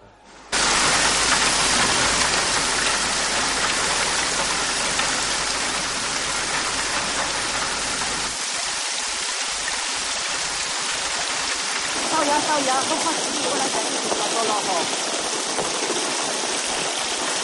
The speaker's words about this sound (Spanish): Llueve torrencialmente.